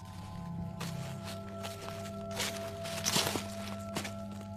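Light footsteps fall on the way up to a temple: a few soft, faint steps spaced unevenly over a steady low humming drone, with no voices.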